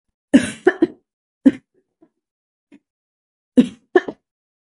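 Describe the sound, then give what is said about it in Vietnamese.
A sick person coughs violently in harsh, loud bursts. A cluster of three coughs opens, a single cough follows, faint breathy sounds come after a pause, and another tight cluster closes the sequence. “Thẩm Thanh Huyền bắt đầu ho dữ dội như muốn văng cả tim gan ra ngoài”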